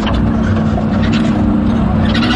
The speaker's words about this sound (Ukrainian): І ось машиною доїжджаємо до певної точки.